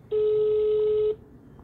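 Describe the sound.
A single steady mid-pitched telephone tone lasting about one second as a call is placed. It is followed by quiet line hiss.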